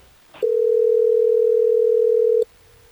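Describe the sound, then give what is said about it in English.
A single steady telephone ringing tone while a call is placed, a continuous mid-pitched electronic tone lasting about two seconds, then silence. “Are you ready for us to get her on the phone?”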